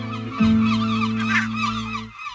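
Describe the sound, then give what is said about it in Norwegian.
Seagull-like calls: loud, harsh, wavering cries sit over a steady low droning tone that holds for about two seconds before cutting off. “Jeg vil si noe om mitt forhold til måker. Jeg hater måker.”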